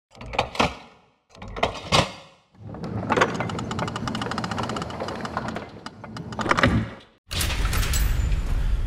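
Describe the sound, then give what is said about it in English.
A heavy vault door opening as a sound effect: two short mechanical whirs, a long grinding motorized run, then a dull rumbling roar to finish. “So I'm voting for C-Spot Run to be inducted into the default vault. Well, let me open it real quick.”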